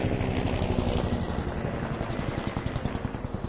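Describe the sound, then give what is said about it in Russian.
A helicopter flies low overhead through falling snow, its rotor pounding in a steady, rhythmic beat that grows more distinct toward the end over a dense, continuous engine roar. “Темная тень снова пронеслась над ним, на этот раз гораздо ниже. Это был вертолет.”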